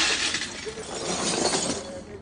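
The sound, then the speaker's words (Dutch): Broken household items are tossed into a rubbish bin, making a continuous, fairly loud crash of shattering and clinking, glass-like debris across the whole stretch with no pauses. “Wat doen we met al die kapotte spullen? Geef me hier, die gooien we in de vuilnisbak.”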